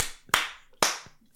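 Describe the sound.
Hand clapping meant to trigger a clap switch in a flat: three sharp, separate claps spaced about half a second apart, each a loud crack followed by a fading ringing tail, with near silence between.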